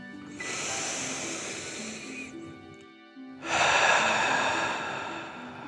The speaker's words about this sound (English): Last one, fill up your belly, deep breath in and out.